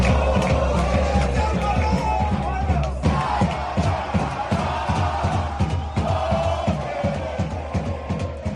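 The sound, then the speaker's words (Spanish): A football crowd cheers in the stands at El Chopo in Galapagar as the club celebrates staying in Tercera Federación. Steady, rhythmic clapping and chanting pulse over a constant, loud roar of fans. “Así sonaba el Chopo ayer en torno a la 1:30 de la tarde y sonaba así la grada porque el Galapagar será un año más equipo de tercera Real Federación.”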